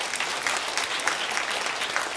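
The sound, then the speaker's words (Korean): Applause from a church audience: a dense, steady wash of many hands clapping that fills the whole clip without a break. “하나님께 영광의 박수를 올립니다.”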